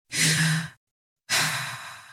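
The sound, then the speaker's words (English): A deep breath, heard as two long, airy, breathy rushes separated by a short silence, with the second trailing off gradually and no talk over it. “Take a deep breath.”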